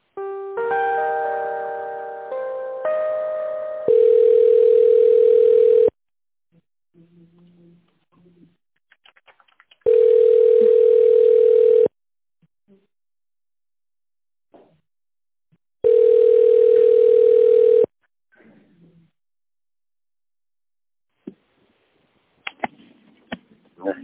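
Telephone line tones as a call is put through: a brief run of shifting electronic tones, then three long, steady, mid-pitched beeps of about two seconds each, separated by silent gaps.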